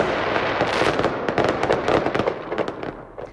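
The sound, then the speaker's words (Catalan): Fireworks from the castle of fire at Punta del Miracle, set off by the company that won an international fireworks contest, crackle and bang loudly in a dense, continuous barrage. “La pirotècnia guanyadora del concurs internacional de focs ha estat l'encarregada de fer el castell de focs de la Punta del Miracle.”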